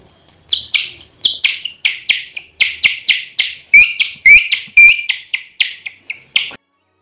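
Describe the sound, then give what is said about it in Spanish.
Skylark song: many rapid, bright, high-pitched chirps and warbled trills in quick succession, some with sharp whistled notes, loud and steady throughout with no talk. “el alegre canto de la alondra, feliz como si fuera un día de fiesta”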